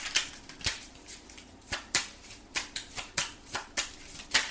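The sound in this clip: Tarot cards being shuffled for a reading: a long run of crisp, papery snaps in a fairly steady rhythm, many in quick succession, fairly quiet and with no talking.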